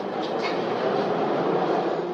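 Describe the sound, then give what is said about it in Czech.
A metro train departing, with a steady, loud rumbling roar of wheels and running gear held evenly throughout and no voices. “Vlak se rozjíždí.”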